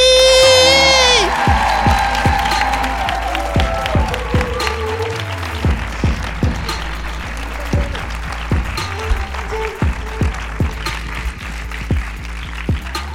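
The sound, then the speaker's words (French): An audience cheers and applauds for a guest, starting with high whoops and a loud burst of clapping that thins out into scattered individual claps by the end. “Mesdames et messieurs, s'il vous plaît, faites un bordel, mais vraiment abusé pour Sally!”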